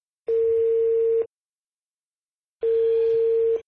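Ringback tone on a telephone line while calling a relative: two long, steady mid-pitched tones of about a second each, separated by a pause of silence, with no voices.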